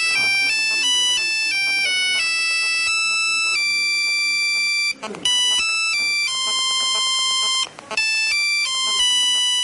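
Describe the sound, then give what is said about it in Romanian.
A phone ringtone plays a melody from a Soviet-era film soundtrack in loud, clean electronic tones, stepping through a tune with two brief breaks partway through. “Ca sunet de apel, el folosește o melodie din coloana sonoră a unui film, ce-i drept tot din perioada sovietică, Generalii Carierelor de Nisip.”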